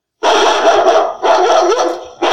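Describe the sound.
Dogs barking in kennels in a video game: two long, loud, harmonic bursts of barking and yelping, each lasting about a second, with a third starting at the end. No voices are heard.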